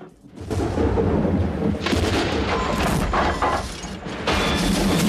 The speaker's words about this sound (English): Lightning rips through the schooner's rigging.